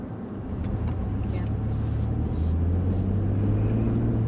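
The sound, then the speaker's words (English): Steady low engine rumble and road noise from a car driving south of Houston, Texas, a continuous drone that swells slightly after the first half second and holds even to the end. “It's toward the end of 2021, and we're driving around Texas together.”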